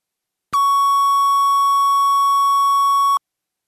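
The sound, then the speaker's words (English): A film sound-roll reference tone set at minus 8 dB to read 0 VU on the meter. It is a single loud, pure beep that holds one steady pitch for under three seconds and then stops cleanly, with silence on either side. “We have a minus 8 to be reference tone to follow in the modulometer, which equals 0 VU.”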